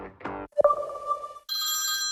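A telephone rings with electronic tones: a lower sustained tone gives way to a bright, higher-pitched ring that holds to the end.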